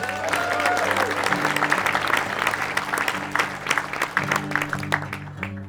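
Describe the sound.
Audience applause greeting a five-string banjo player coming on stage, a dense, steady wash of clapping mixed with crowd murmur that thins a little near the end.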